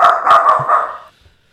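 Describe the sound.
A dog barks in a single loud, drawn-out outburst that holds for about a second and then cuts off into quiet.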